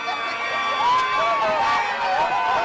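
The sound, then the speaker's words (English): Supporters of Gambian President Adama Barrow celebrate his election win with cheering, a loud crowd din with shouted and whooping voices rising and falling over it. “Gambian President Adama Barrow has been declared the winner of Saturday's election in what his supporters are celebrating as a landslide.”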